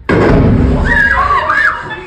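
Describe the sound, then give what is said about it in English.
A bomb explodes in Tel Aviv while teenagers hide with classmates: a sudden loud blast followed by a heavy rumble that slowly fades over about two seconds, with voices and wavering higher tones over the tail. “captured this footage as a bomb exploded around them”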